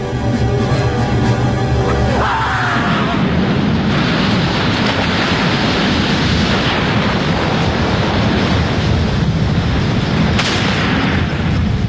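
Loud, dense gunfire roars on without a break, the shots blurring into one continuous barrage with no clear gaps, and a brief tonal sound is heard at the start.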